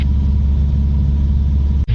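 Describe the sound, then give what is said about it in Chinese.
A training aircraft's engine drones loudly and steadily in level flight at about 300 metres, a constant low rumble that cuts out briefly near the end. “目前飞机是个平飞状态，高度现在是场要高度300米。”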